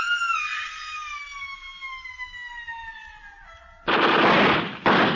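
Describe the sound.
Gunfire in a film scene begins with a long, gradually falling whine, then two loud bursts of shots, the second shorter than the first.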